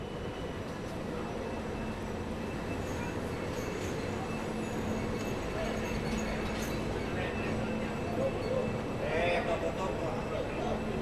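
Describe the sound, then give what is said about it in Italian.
Train station ambience at Santa Maria Novella in Florence: a steady, dense rumble of rail noise and crowd murmur, with voices talking over the constant background. “sono venuti a prendermi alla stazione di Santa Maria Novella, loro si sono già trovati adesso tra pochi istanti li incontrerò anch'io.”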